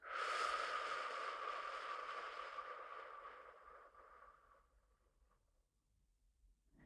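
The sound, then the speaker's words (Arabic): A slow exhale through the mouth during a breathing exercise: a soft, airy rush that starts at its strongest and fades gradually over several seconds into near silence. “نحبس، زفير من الفم.”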